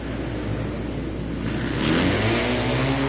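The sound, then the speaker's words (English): Racing motorcycle engine, a Triumph 750 in a pro singles heat race, roaring steadily, then growing louder and climbing in pitch as the rider accelerates. “Frank Bardero from Hera, Oklahoma, riding a Triumph 750. And there's a white flag, one lap to go.”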